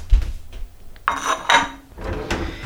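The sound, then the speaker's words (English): Bowls of food carried over in a home kitchen and set down on a surface, with a few clattering knocks and clinks of dishware separated by short pauses. “I'll bring the bowls of stuff over here.”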